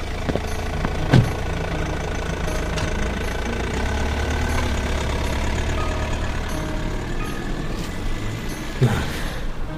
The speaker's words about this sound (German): Sie fahren weg.